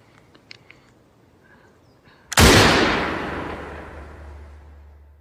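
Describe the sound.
A single loud gunshot in an audio drama bursts suddenly out of a quiet moment. A long, ringing echo follows and fades slowly over several seconds.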